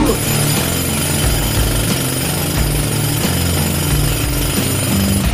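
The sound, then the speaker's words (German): A pneumatic jackhammer breaking up tiles and concrete keeps up a loud, continuous rattling hammer from start to finish, with a low, shifting mechanical drone beneath. “Sie haben noch keinen Presslufthammer? Sie brauchen einen Presslufthammer. Löst Fliesen, löst Beton, löst Verspannungen, löst Probleme.”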